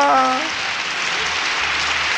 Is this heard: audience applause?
yes